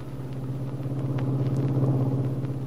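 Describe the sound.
A car drives along in a radio drama sound effect, a steady low engine rumble with a gentle wavering hum and no voices.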